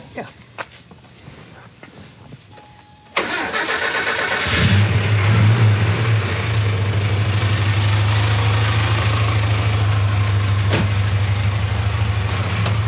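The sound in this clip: Car engine turns over and catches a few seconds in with a sharp burst, then settles into a steady, even idle hum that carries on to the end.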